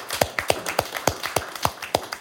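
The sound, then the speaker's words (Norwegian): Rhythmic, evenly spaced hand claps from an audience applauding a Trøndelag farm's prize-winning cheese, a steady beat of sharp, moderately loud claps at about three per second with no talking. “Kan ikke vi gi en applaus for bare det? Jeg synes vi kan gjøre det.”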